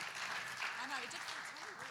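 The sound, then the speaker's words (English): Audience applause welcoming a guest on stage: steady, dense clapping from start to finish, with a voice speaking over it. “Can we put our hands together and give Louise a very big welcome this morning?”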